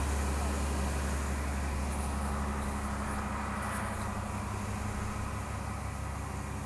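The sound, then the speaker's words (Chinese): A large truck-mounted generator runs with a steady, low droning hum and a constant rumble that stays even throughout. “哦，原来这台车是发电机哦，大台。”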